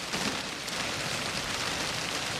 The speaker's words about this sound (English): rain dribbling off his face